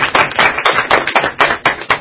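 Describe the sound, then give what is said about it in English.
Sharp hand claps from a small group at a League committee meeting, in honor of a member's work, come in a quick, fairly even run of loud strikes, with no talk over them. “Yeah, I think we should give her a round of applause.”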